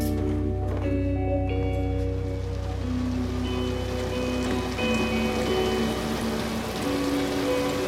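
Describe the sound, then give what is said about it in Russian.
Rain falling on a city street, a steady hiss that runs through the whole clip beneath sustained musical tones. “Девушка под дождем идет по улице города.”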